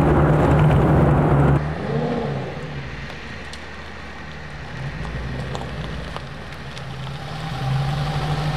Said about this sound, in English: And the car just pulls. Loads of torque from idle. Amazing.